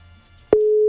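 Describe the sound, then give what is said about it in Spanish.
A telephone line gives a click and then one steady, mid-pitched tone lasting about a third of a second, on a call that rings unanswered. “Llamábamos a Jorge Iván Osorio Arias. Pero entonces, como él no contestó, vamos a hacer otra llamada.”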